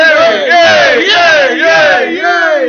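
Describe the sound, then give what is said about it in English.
A voice imitates a wrestling crowd chanting "yay", a loud, drawn-out sung cheer with several swooping rises and falls in pitch, continuous for nearly three seconds. “The usual punches back and forth, which went for ages, was usually, yay, boo, yay, boo. It was just like,”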